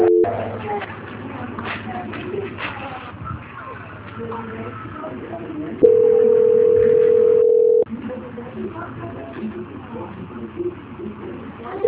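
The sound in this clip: A single steady telephone tone, about two seconds long, sounds while a phone call is being transferred. It rises clearly above a noisy background of murmuring voices and rustling.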